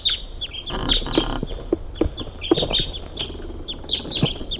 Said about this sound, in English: Another bird's flying.